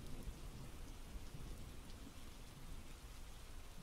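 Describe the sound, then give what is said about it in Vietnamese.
Heavy rain pounding on a corrugated metal roof, a dense, steady roar with no breaks, loud and unchanging throughout, with no voices. “Ở bên ngoài tiếng người đã dứt, mưa vẫn cứ dội ầm ầm lên mái tôn.”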